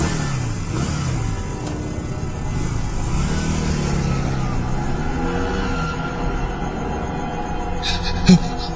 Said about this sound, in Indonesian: Tanpa pikir panjang, aku langsung menancap gas.